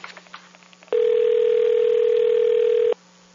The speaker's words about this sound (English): Going to do a prank call with the system. Dialed it twice because I made a mistake.